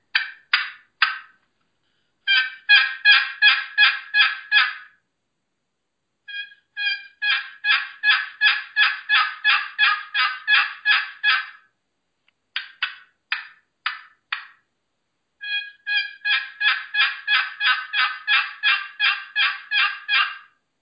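A turkey hunting call is played by hand, producing sharp, raspy yelps in several evenly paced runs separated by short pauses. The yelps are loud and heard alone, with no talk.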